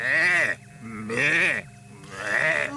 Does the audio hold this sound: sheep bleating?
yes